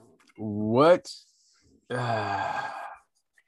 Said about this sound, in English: I'm taking a deep breath with you.